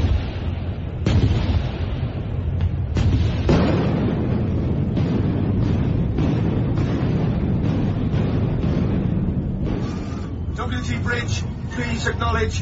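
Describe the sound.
Naval gunfire and shell explosions hitting a warship escorting a convoy: a few sharp booms in the opening seconds give way to a loud, continuous, rumbling roar.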